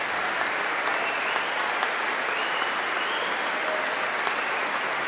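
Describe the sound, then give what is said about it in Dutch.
Steady audience applause fills the room after a concert with viola da gamba, bassoon and serpent players. Dense, even clapping holds at a constant loudness throughout, with no voices standing out. “Applaus ook voor Lucille Perret op fagot.”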